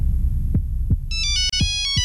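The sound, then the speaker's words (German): A mobile phone rings with an electronic ringtone of bright, repeating tones that starts partway through. Steady, low thumping beats run underneath the whole time. “Mein Handy klingelt.”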